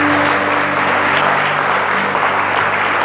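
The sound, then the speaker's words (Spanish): A church audience applauds during an evening service: dense, even clapping that stays loud and steady from start to end. “¿Cuánto le pueden dar un aplauso a papá en esta noche?”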